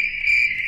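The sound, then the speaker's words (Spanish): Crickets chirp as a sound effect, giving a brief, steady, high-pitched trill that holds at an even level. “Este es el sonido de los grillitos.”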